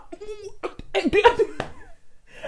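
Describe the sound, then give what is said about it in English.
Choking coughs in the middle of a conversation: a few sharp sputtering bursts mixed with laughter-like voiced gasps and giggles. “I'm choking. Excuse me.”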